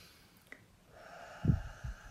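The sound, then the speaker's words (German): A deep breath in and out, taken before chanting Om at the end of a meditation: a soft, airy inhale followed by a couple of low, breathy puffs, all faint. “Und für dieses Om atme einmal tief ein und tief aus.”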